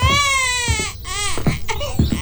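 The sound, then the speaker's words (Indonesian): An infant cries in loud, high-pitched wails, a few harsh bursts broken by short catches of breath. “Dari tadi tidak berhenti menangis.”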